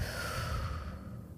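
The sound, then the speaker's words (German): A slow, relaxed exhale during a guided breathing exercise: a soft, steady rush of breath that holds for about a second and a half before thinning out at the end. “Und ganz entspannt wieder ausatmen.”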